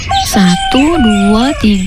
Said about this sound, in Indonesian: Kok ayam-ayam kita jadi banyak ya? Kayak ada 10 ekor.